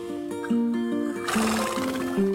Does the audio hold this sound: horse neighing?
yes